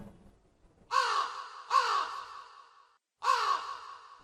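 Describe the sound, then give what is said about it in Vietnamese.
Crows caw behind a house at five in the morning: three harsh, hoarse caws come at fairly even intervals, fairly quiet, with short silences between them. “Tiếng quạ vẫn còn kêu lên chưa dứt.”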